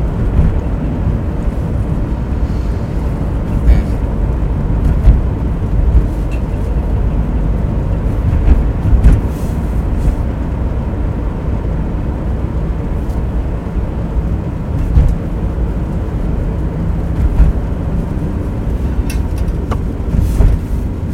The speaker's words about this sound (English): Much to the chagrin of, I'm sure, people behind me, I am driving the speed limit.